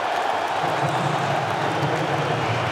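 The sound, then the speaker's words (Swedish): Crowd roar at a football World Cup match as Belgium brings on Romelu Lukaku as a substitute, a dense, steady wash of many voices that stays loud throughout. “Då görs bytet där Romelu Lukaku kommer in i den här matchen. Det är färdigspelat för De Ketelaar i Belgien. Och ni hör på publikens reaktioner.”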